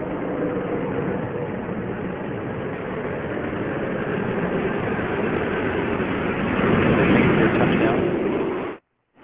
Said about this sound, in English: Horowitz rotating the nose down to the deck. Nose gear touchdown. Discovery rolling out on runway 15 at the Kennedy Space Center